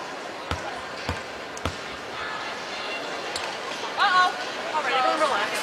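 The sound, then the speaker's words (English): Basketball free throw in a professional game: a few sharp ball bounces sound at the line, followed by a fainter knock as the shot rattles in on the rim, over a murmuring crowd with scattered voices. “Hull's free throw rattles in.”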